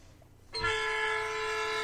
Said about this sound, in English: That's a train.